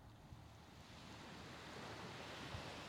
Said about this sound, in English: Begin to focus on the waves. First, just notice them coming and going.